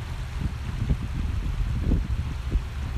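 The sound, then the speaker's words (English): Water flows in a stream as a steady, low rushing wash with small splashy ripples rising and falling throughout, alone with no voices. “You're going to hear the sound of water because I'm sitting by a stream.”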